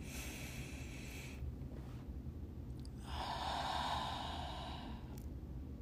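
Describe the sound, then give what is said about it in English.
A deep breath is drawn, a slow, soft rush of air that swells briefly and then eases, faint and with no speech. “I want you to close your eyes. I want you to take a deep breath.”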